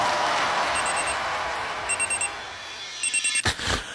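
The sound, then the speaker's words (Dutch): Telephone ringing in a few short, high trilling bursts, faint over a steady hissing background, with a sharp percussive hit near the end. “Nu Ster bellen.”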